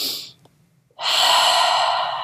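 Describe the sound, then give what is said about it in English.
An exaggerated deep breath demonstrated by an adult: a short breathy rush, a brief pause, then a long, loud, forceful breath that carries to the end. “you're doing these really exaggerated breaths, as well as modeling this exaggerated breath anytime you're on the verge of yelling”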